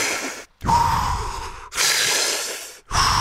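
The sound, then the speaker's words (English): Full inhales and full exhales of Wim Hof method breathing sound as a few strong, rushing breaths, each one long and loud, split by brief silent gaps. “Fill yourself with breath, then fully expel the breath. So it sounds like this.”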